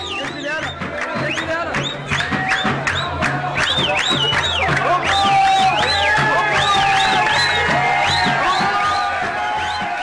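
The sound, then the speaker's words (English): A mob in Egypt cheers over the arrest of an atheist. Many voices shout, whoop and yell at once in a loud, continuous roar, with high, wavering cries repeatedly rising out of the din. “What you're hearing is not a riot or a protest against the government. It's a mob celebrating the arrest of an atheist in Egypt.”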